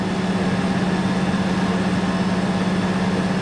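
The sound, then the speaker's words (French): A steady engine drone holds an even, low hum at constant loudness for the whole stretch, with no clear surge in speed and no voices over it. “Il a remis les gaz”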